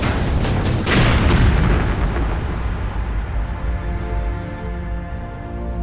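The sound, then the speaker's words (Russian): Artillery shells explode during a heavy bombardment of a village where tank crews are refuelling. A deep, loud blast peaks early, then a long, low rumble slowly fades. “«Артиллерия! Нас обстреливают! Прячься!»”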